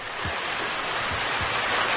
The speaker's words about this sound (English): All the hoses coupled up. We'll flood that thing with water from all angles. All right, here's the signal. Open them up! Full blast!